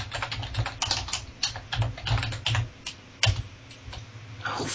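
Fingers typing on a computer keyboard to enter text, with quick clusters of sharp keystroke clicks broken by short pauses. The clicking is irregular and fairly loud, and no voices are heard.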